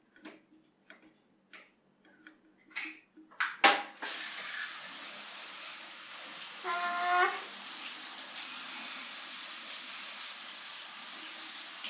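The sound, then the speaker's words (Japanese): Running water washing off soiled underpants: a few sharp clicks and taps, then a steady, soft hiss of flowing water that continues to the end. “洗い流します。パンツ含めて、全部。”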